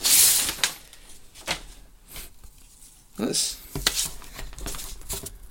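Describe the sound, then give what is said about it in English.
A brown paper envelope is torn open, giving a few sharp, crackling bursts of rustling and ripping paper with quieter handling noise between them. “Okay, so it's just a brown envelope. Yeah? Yeah. And I'm opening it now.”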